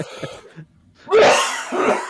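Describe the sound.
Coughing and throat clearing into a microphone: faint rough sounds at first, then a short pause, then two loud, harsh bursts close together near the end.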